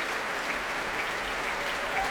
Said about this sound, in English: And that first roar of applause and cheer was for the snare drum player Heather Corbett in the BBC Scottish Symphony Orchestra.